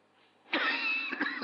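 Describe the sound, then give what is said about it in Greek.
A harsh, raspy cough bursts out suddenly and trails into a rough, breathy rasp, with a couple of smaller catches near the end; fairly faint, with no talk. “Ζήτω συγγνώμη για τον ενοχλητικό μου βήχα. Του είπα να φύγει αλλά δεν έφυγε.”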